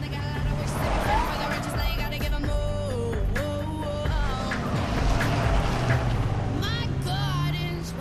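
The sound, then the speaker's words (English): A compact car speeding out of a parking lot, its engine humming and revving upward, mixed in with other busy background sounds. “Now, as Claire's compact car speeds from the parking lot, Noah's truck pulls out after her.”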